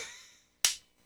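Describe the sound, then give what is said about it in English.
One crisp, isolated hand clap cracks out after a quiet gap, part of some disjointed clapping, with the fading tail of an earlier sound just before it. “Nope. Just disjointed clapping.”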